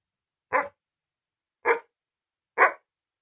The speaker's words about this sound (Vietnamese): Tiếng chó bất ngờ sủa vang khắp phòng, làm ngắt ngang câu hỏi của tôi.